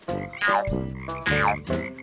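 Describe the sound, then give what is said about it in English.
A small, skinny frog in a river among lily pads croaks in a series of low, rasping, buzzy calls with harmonic overtones, loud and alone, with no other sounds. “he noticed a small, skinny frog jumping from lily pad to lily pad in the river.”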